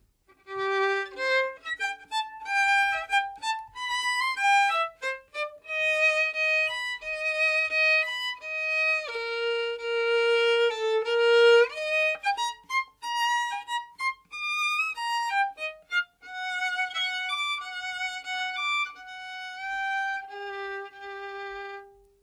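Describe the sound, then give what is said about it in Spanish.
A string section plays a lively, bouncing melody that represents a child's cheerful mood. The line moves in quick steps with held notes between them and stays alone at a moderate, even volume. “Prokofiev decide representar a Pedro con la familia de los instrumentos de cuerda.”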